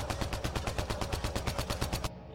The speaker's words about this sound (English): So you sling around your assault rifle and open fire on this panel.